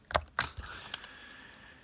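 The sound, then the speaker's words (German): Keys pressed together on a Focus 40 braille display to open its menu: a few quiet, sharp plastic clicks in quick succession, followed by faint hiss. “Um das Menü aufzurufen, drücke ich die Menütaste, welche sich ja zwischen den Breitasten befindet und den Buchstaben M für Menü. Das ist die Kombination 1, 3 und 4.”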